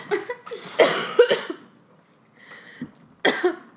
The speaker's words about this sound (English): I almost choked. This is a bad idea. I can't breathe.